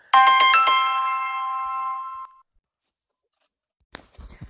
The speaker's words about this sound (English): Every time I seem to try to make a podcast, I start getting phone calls.